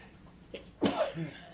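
A single sneeze: one sudden, loud, breathy burst that trails into a short voiced tail, standing alone over quiet background hiss.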